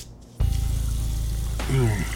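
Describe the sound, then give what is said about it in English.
Water splashes and sloshes in a basin as a face is washed beside a nightstand. The wet rush starts abruptly and holds steady, and a voice rises near the end. “He swung down from his bed and padded over to the nightstand to wash his face in the basin.”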